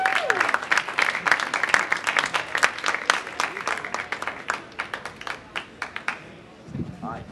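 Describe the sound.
An audience applauds to welcome a filmmaker at an Apple Store talk: dense clapping that gradually thins into scattered separate claps and fades out.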